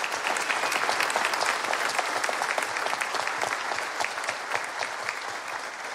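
Audience applause welcoming a bishop at a Christmas church service, a dense, steady clapping that holds at an even loudness for the whole stretch with no voices rising above it.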